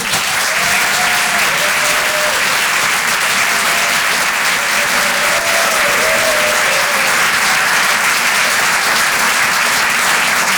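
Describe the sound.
Audience applause welcoming a performer onto the stage, a loud, unbroken roar of clapping with a few faint cheers, sustained at an even level throughout.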